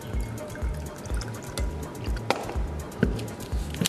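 Liquid pours as an energy drink is diluted with water at a bar counter: steady splashing and trickling with a regular low gurgling pulse and a few sharper drips, no voices.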